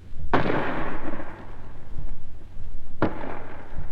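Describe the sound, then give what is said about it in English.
A 5.5-inch gun fires at point-blank range at a fort wall, then its shell bursts on the wall. Two sharp, loud bangs come a few seconds apart, each trailing off in a long rumbling decay. “First, a 5.5 gun fired at the wall of the fort for an hour or more at point-blank range, about 250 yards. The first bang you heard was the gun firing, and the second was the shell bursting on the wall.”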